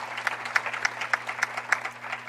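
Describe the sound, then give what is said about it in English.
Audience applause at a chapter gathering: steady clapping with evenly spaced, regularly accented beats that give it a rhythmic pulse, held at a moderate level throughout. “yes, clap for them, please. They're doing a phenomenal job.”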